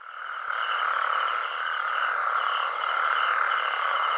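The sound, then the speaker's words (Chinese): A chorus of male natterjack toads giving mating calls at night at a pond in the Mediterranean region after heavy rain: loud, continuous, overlapping rattling trills that hold steady throughout with no pauses. “这是雄性黄条背蟾蜍求偶的叫声。体型较大的雄性黄条背蟾蜍占据了水塘的最佳位置，用叫声吸引雌性。”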